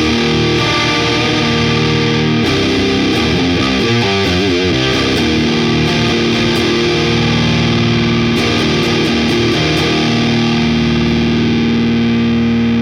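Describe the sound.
Electric guitar through a Germanium distortion effect plays thick, fuzzy, sustained chords, loud and unbroken, with a warm, rough edge.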